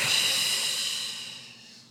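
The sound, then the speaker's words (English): A slow, steady exhale through the mouth at the end of a counted breathing exercise, a soft airy hiss that gradually fades over about two seconds. “And then you exhale on the count of eight.”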